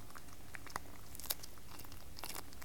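A dog crunching on a bone: faint, sparse, crisp cracks and clicks at irregular intervals over a quiet background.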